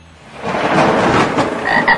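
Frogs croaking: a dense, loud chorus of rasping, throaty croaks that builds quickly and continues throughout, with a couple of sharper higher calls near the end and no voices.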